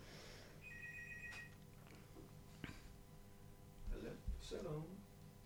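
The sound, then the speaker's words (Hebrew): A telephone rings with an incoming call: a short, high electronic ring tone sounds once over steady background noise, with faint voices and a few soft knocks nearby. “יש לנו שיחה, אני שומעת.”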